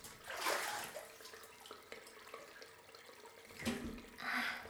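Water sloshing in a large Roman-style bath, soft and faint, with a few brief splashing swells rising above a quiet background.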